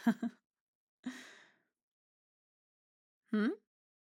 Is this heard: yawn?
yes